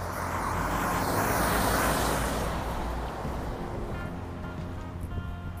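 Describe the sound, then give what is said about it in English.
Semi truck driving by, a loud, broad rumbling roar that swells over the first two seconds and then gradually fades away. “It's a semi driving by, so I'ma hold off for a second.”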